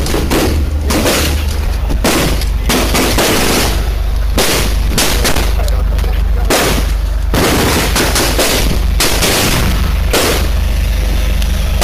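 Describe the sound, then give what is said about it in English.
Heavy gunfire during a police commando rescue under fire at kibbutz Nir Am: many loud shots and rapid bursts crackle in clusters throughout, dense and sustained, with no talking. “this is a video of the elite commando police force that rescued people under insane fire on october 7th in kibbutz Nir Am”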